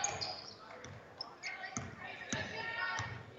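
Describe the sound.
Basketball dribbled on a court during a girls' high school game. Several sharp, hollow bounces come at an uneven rhythm, moderately faint, under ongoing talk.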